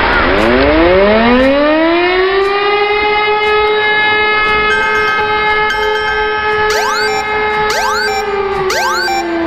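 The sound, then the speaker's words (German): Civil defense warning siren sounding for Germany's nationwide warning day test: a loud, sustained wail that climbs in pitch at the start and then holds steady, with wavering rising sweeps layered on top near the end. “Na, schon erschrocken? So oder so ähnlich klingt es morgen auch bei uns. Es ist nämlich mal wieder bundesweiter Warntag”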